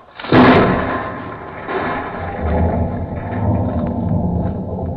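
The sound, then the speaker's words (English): A blasting explosion goes off in a tunnel being dug under a river: one sudden, loud, broad boom, then a heavy rumble that lingers and rolls on to the end. “Okay, everybody, clear. We're blasting!”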